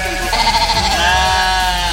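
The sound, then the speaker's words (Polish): A sheep bleats on a farm where sheep are fed and sheared: one long, wavering, nasal call with a shaky tremble. It holds steady and fairly loud through most of the moment. “Co się daje takim owieczkom? No jedzą praktycznie, można powiedzieć, wszystko to, co zielone, jest fajne, lubią zioła, tak, lubią siano zimą.”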